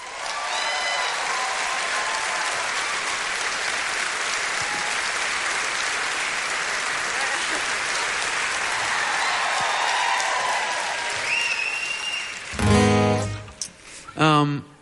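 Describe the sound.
An audience gives a warm, sustained round of applause to welcome a singer-songwriter onto the stage, with dense clapping and some cheers and whistles lasting about twelve seconds before a voice begins.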